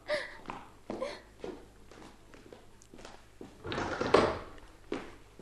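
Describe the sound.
A door being opened for an arriving doctor: a series of footsteps and soft thumps, then a louder rattling clatter of handling near the end, all fairly faint.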